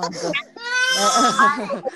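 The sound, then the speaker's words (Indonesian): A small child cries in a long, high, wavering wail that swells loudly after a brief bit of talk and trails off near the end. “Ini lagi dititipin anak ya? Ikhlas nggak dititipin? Iya, ini ada anak kecil nangis nih kan.”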